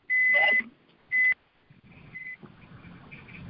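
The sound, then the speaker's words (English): Two high electronic beeps come from a participant's device on a group call, the first longer than the second, followed by quiet background noise. “somebody's beeping.”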